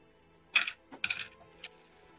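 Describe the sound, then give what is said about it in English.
Dice rattling and clattering as a large handful is rolled during a tabletop game, a few quick, faint, dry bursts of clicking knocks spread over about a second. “You are rolling just too many dice.”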